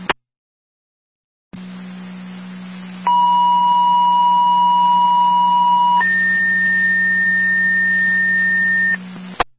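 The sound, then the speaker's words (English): Fire dispatch paging tones alerting a station's EMT and driver to an EMS call: a steady low hum starts, then a sustained mid-pitched tone gives way to a longer, higher tone, framed by sharp clicks at the start and finish. “Wilson, additional tones, EMT and or driver to your station for the EMS call with Val Wilson on Willow. Repeating, Wilson. Additional tones”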